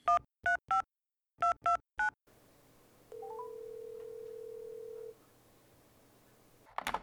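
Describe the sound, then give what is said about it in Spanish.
Telephone keypad tones dial a call: six beeps in two groups of three, then a hiss and a single long ringing tone, with no talk. “Manéjese ahí con la conexión y llamemos a Juan Andrés. Llamando, llamando.”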